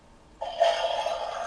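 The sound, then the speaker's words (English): A children's toy plays a toilet-flushing sound effect: a sudden rushing hiss starts after a short quiet moment and then holds steady and fairly faint to the end. “What's that? That's the toilet flushing.”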